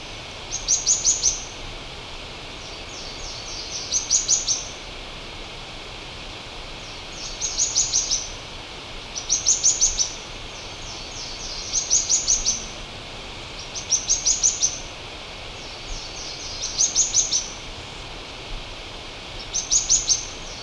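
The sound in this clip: Streaked Xenops calling, about eight short, high, thin trilled bursts at regular intervals over a steady hiss of background noise.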